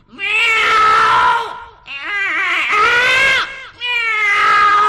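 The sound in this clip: A cat yowls while being bathed in cold water in winter, giving three long, loud, drawn-out harmonic wails with wavering pitch and short breaks between them.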